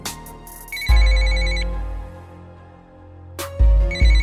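A phone rings while someone tries to call a person who does not answer. The high, pulsing electronic trill comes in two bursts, each falling on a deep booming bass hit that swells and then slowly fades.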